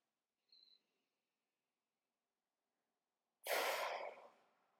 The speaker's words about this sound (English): let's do a deep breath now. And just one more.